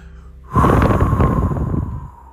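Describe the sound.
A person takes a deep, loud breath, a long airy rush that holds steady and then fades away.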